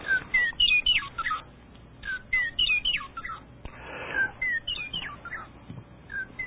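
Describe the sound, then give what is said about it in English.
A western meadowlark sings several short, fairly loud bursts of clear, flutelike whistled notes and quick gurgling phrases, with no voices. “there's our bird, our meadowlark, western meadowlark.”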